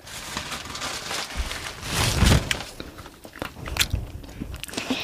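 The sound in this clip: Someone eats popcorn, crunching and biting it in irregular bursts. The crunching grows loudest in a thick cluster midway, then continues as scattered sharp crunches.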